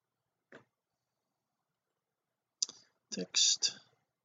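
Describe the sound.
Computer mouse clicking, quiet and dry: a single isolated click, then after a pause a quick cluster of several sharp clicks in close succession.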